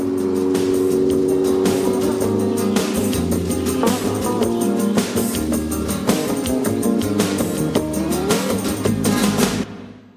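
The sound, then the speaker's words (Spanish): A car and a motorcycle drive away together, producing a loud, continuous engine rumble with a steady drone that lasts almost the whole clip before cutting out near the end. “El coche y la moto se alejan.”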